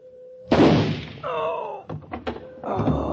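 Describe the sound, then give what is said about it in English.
A gunshot goes off in a suspense radio drama: one sharp, loud blast with a broad burst of noise that slowly dies away, followed by further tonal and knocking sounds. “The gun went off.”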